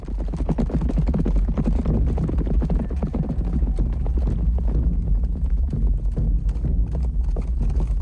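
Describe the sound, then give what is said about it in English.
Galloping horses carry a group of riders across a meadow, many hoofbeats blurring into a dense, continuous drumming that stays loud and steady throughout, with no voices. “a group of riders gallop across a meadow”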